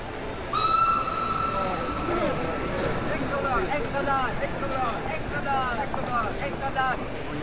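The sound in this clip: Train whistle at a railway station platform in 1860s New York: a sustained, steady tone sounds near the start, followed by a busy station hubbub with a dense, continuous mix of noises.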